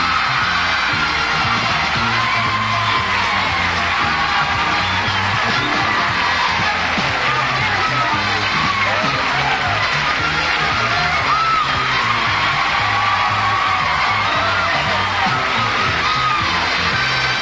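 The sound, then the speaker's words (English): The studio audience of The Price is Right game show cheers, whoops and yells to welcome host Bob Barker, a dense and loud roar that holds throughout. “thank you for that wonderful welcome, but a lot of people at home are going to think that I got a standing ovation”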